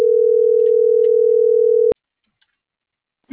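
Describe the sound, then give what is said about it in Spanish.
A steady, mid-pitched telephone line tone sounds while a call is dialed. It holds evenly for about two seconds, then cuts off abruptly into silence, and a brief faint noise follows at the very end. “Ya te lo estoy marcando para ver qué show.”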